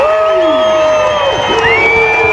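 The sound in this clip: A crowd cheers and shouts at a horse event. Loud, sustained whoops and yells swoop up and down in pitch over a continuous roar of excited voices.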